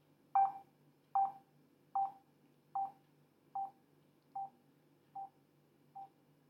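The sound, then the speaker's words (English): A phone speaker gives eight short electronic beeps while the volume-down button is held. The beeps are evenly spaced under a second apart and grow steadily softer. “now I've just released it now, and that's when I heard the last very, very soft beep coming out of the speaker. So I'm going to hold the volume up on in now, and you hear the beeps as they get louder.”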